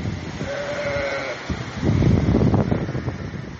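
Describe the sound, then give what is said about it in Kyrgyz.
Sheep bleating in a pen flooded by a mudflow after heavy rain in Jalal-Abad region, Kyrgyzstan: one clear drawn-out bleat, followed by a louder, rough rushing noise that fills the rest. “Койлор короодо калды, короону аралап кетип атат сел.”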